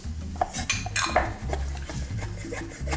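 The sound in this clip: A stirring stick mixing still-warm instant-cooking powder, giving a few light clinks and scrapes in an uneven rhythm, fairly faint and with no talk.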